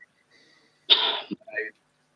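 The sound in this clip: A sudden sneeze breaks out of near silence: one sharp, hissing burst, followed a moment later by a shorter, softer sound.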